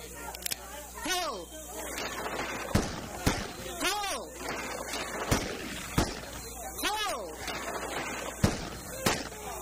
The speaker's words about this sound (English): That is impressive shooting.